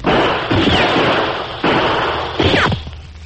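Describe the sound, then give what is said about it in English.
Gunshots are exchanged in a western-style shootout among boulders and trees. Three loud, sharp blasts land at uneven intervals, each trailing off into a decaying rumble over a noisy background. “We'll throw some lead their way. After an exchange of shots, there was silence.”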